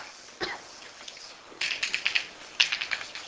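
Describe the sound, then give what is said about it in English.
Drawing a diagram on a board: a single tap, then quick runs of tapping, scraping strokes with a faint thin squeak, growing denser toward the end. “We can try to contrast this with the case that I just erased. Let me draw it again.”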